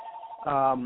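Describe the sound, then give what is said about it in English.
Telephone ringing, a brief faint electronic tone that shifts into a buzzier, harmonic-rich burst lasting well under a second. “and then my telephone's ringing, I ain't going to answer it, the heck with that. Hope somebody else does.”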